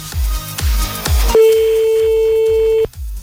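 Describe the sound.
A French telephone call being placed on air: after a few short thumping beats, a single steady ringback tone holds for about one and a half seconds, with low rhythmic thumps continuing underneath.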